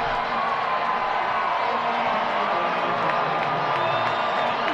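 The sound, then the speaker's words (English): Baseball crowd cheering at a Worcester game with the bases loaded and two outs in the seventh inning, a dense, steady roar of many voices that stays loud throughout with scattered higher whoops. “Now the crowd really into it.”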